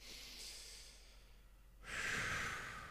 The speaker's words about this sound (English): I'm just going to take one quick deep breath to kind of center my mind after this insane shit show.